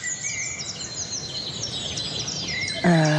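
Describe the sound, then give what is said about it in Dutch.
Birdsong in the Ridderoordse woods, with chiffchaff, blackbird, chaffinch, wren and great tit singing together in many overlapping bright chirps, whistles and trills at a steady, moderate level. “Tjiftjaf is wakker, Merel is wakker. Vink. Vink, winterkoninkje. Koolmees op de achtergrond.”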